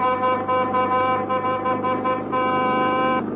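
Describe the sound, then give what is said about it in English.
A car horn sounding to signal a wish to overtake: one sustained, buzzy honk holds steady for about three seconds, with a brief dip partway through. “A sound horn, please. Indicate desire to overtake.”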